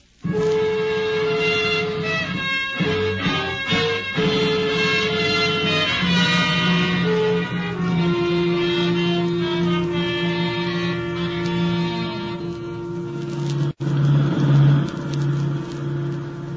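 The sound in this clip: A car engine drones steadily as it drives along and pulls up to the curb, its tone shifting partway through, with a sharp click near the end.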